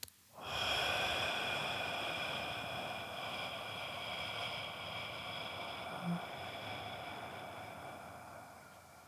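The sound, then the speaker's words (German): A deep breath drawn in during a stress-relief breathing exercise: a long, airy hiss rises quickly, then continues steadily and eases off slightly, with no other sound. “Also jetzt einmal einatmen. kurz halten und”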